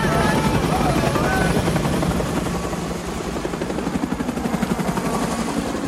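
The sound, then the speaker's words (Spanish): Military helicopters lifting off and departing: a loud, steady rotor chop with dense engine roar that keeps beating throughout, its rhythmic thumping pulses growing more distinct toward the end. “Los helicópteros despegan y se alejan.”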